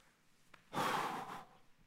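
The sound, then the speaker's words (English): A single wordless groan comes out as a breathy, sigh-like exhale lasting under a second, loud and rough against near silence, with no speech. “That's a wordless groan right there, like the scripture says.”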